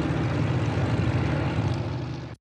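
Propeller racing aircraft, including Glasairs and a Thunder Mustang, taxi out at an air race in Reno, making a loud, steady engine drone that holds for about two seconds before cutting off abruptly.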